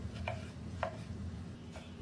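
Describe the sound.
A knife chopping cucumber on a cutting board makes a few faint, sparse taps over a low steady hum.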